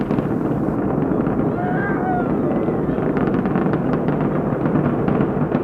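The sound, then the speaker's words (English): Space Shuttle Atlantis lifts off in 1995 carrying the Russian docking module, its rocket engines giving a loud, continuous low roar with a crackling rasp running through it from start to finish. “3, 2, 1, and liftoff of Space Shuttle Atlantis with the Russian docking module, the threshold to world cooperation in space.”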